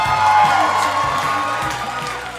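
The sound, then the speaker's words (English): Audience applause and cheering at a live comedy show at a Netflix festival, a loud, dense wash of clapping and whoops that stays strong, then eases slightly toward the end. “Give it up for Robbie. Give it up for Robbie.”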